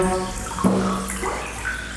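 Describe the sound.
Water sloshes in a bathtub holding about ten inches of water, with soft splashing and one brief louder slosh.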